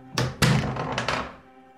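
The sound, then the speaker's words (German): A door being opened: a few heavy wooden thuds and clunks from latch and frame, the last knocks fading into a quiet lingering tail. “Öffnet die Tür!”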